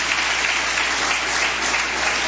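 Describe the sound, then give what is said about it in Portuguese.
Congregation clapping for Jesus during a church service, a dense, steady wash of many hands applauding at an even level throughout, with no voices standing out. “Bate palmas para Jesus.”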